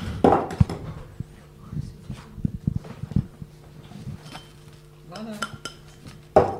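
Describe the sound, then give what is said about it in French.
Metal utensil clinking and scraping against a bowl as icing sugar, almond powder and flour are mixed, an irregular run of dull knocks and a few sharper clinks at moderate loudness. “Et maintenant qu'on a mélangé le sucre glace, la poudre d'amande et la farine, on le mélange.”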